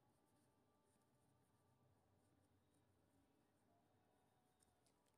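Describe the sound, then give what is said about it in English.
Handwriting scratches, very faint and continuous, as someone writes by hand with soft strokes and no talking over them. “Just a minute. Let me write this.”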